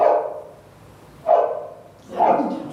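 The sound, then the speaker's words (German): A dog barks three times, each a short, bright, harmonic yelp about a second apart, heard alone with no talk over it. “Das ist ein Hund.”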